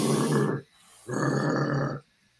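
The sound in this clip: People growl together in a circle, building a deep collective rumble in two long, loud sustained bursts separated by a brief pause.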